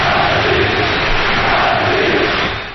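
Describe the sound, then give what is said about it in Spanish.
A stadium crowd of football fans roars at Old Trafford during a Manchester United versus Athletic match. The dense wall of voices stays loud and continuous, then eases slightly at the end. “¡Atleti! ¡Este es el sonido de San Mamés! ¡Perdón! ¡De Old Trafford!”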